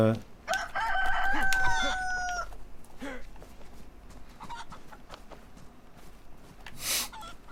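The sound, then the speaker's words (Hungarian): Chickens squawking during a chicken chase in a video game: a loud, drawn-out crow-like call near the start, then scattered clucks and rustling noises at a lower level. “Nem sikerült jól a csirkeüldözés.”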